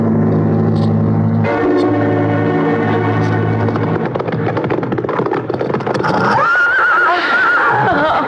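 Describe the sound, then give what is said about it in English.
A horse neighs during a ride: one loud, long, wavering whinny rises out of a dense, steady background in the final seconds. “Oh, you really enjoy riding, don't you? It's exciting. Yes, I like it. I have stables and horses at my country place.”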